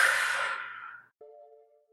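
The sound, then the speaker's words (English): A deep breath exhaled through the mouth, a breathy whoosh that fades away over about a second, followed by a short, steady musical tone. “I need you all to take a deep breath with me. Ready? Okay. In through your nose. Mm-hmm. Out through your mouth.”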